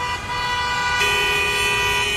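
Steady road traffic with car horns honking, a dense wash of engine and tyre noise carrying sustained horn tones, and a second, lower horn joining about halfway and holding to the end.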